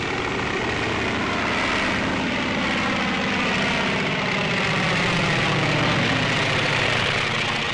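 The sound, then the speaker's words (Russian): Propeller engine of a U-2 biplane running as the aircraft taxis, a loud, dense, continuous drone with a steady rough roar that holds throughout, with no voices. “Пропеллер набирает обороты, по небу прилетает сигнальная ракета. Самолет начинает рулежку.”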